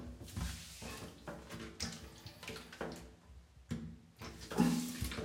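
Running water splashes during hair washing. It is faint and irregular, with uneven bursts of splashing and pouring.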